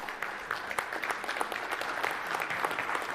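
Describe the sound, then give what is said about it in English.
An audience applauding during a church sermon: dense, steady clapping from many hands, fairly loud, filling the whole stretch without any voices. “God deserved that round of applause.”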